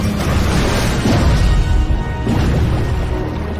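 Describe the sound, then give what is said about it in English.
A crashing, rumbling roar comes from the top floor of a burning building as it is blasted apart by heat vision and gives way toward water below. The noise is loud and dense throughout, with no separate impacts. “As Superman's heat vision destroys the floor, they fall from the top of the building into the water below.”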